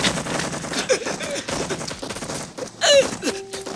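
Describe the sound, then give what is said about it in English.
Gunfire in a battle scene as soldiers exchange fire with villagers in a lane: rapid, irregular bursts of shots, with a louder, denser burst near the end. “Mazarov presses a hand against his throat as he returns fire. All right, cease fire! Cease fire!”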